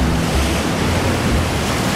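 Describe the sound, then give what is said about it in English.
Atlantic surf rolls onto a windswept island shore on the western seaboard in autumn, where seal pups take to the water. A continuous loud roar of breaking waves mixes with blustery wind noise. “That pup's actually going to go into the water. There's a wave coming up.”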